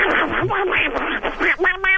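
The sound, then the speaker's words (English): A pet duck quacks in a rapid, loud run of many nasal, buzzy calls with little pause between them. “Oh, that's my pet duck.”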